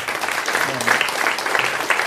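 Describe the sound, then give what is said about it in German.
Audience applause after a talk, a steady, dense clatter of clapping at an even level, with a voice briefly heard within it. “bitte nochmal einen Applaus für Alexander Lohberg.”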